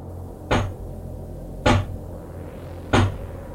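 Knocking on a cabin door: three heavy, single thuds at a slow, even pace over a low, steady hum.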